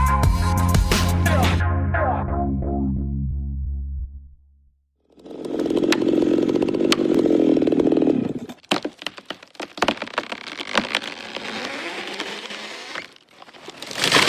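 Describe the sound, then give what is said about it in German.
A chainsaw felling an old giant rainforest tree in the Amazon: a loud engine drone, then a short silence, then groaning, splintering wood and many sharp cracks and crashes. “So klingt es, wenn ein alter Urwaldriese im Amazonas gefällt wird.”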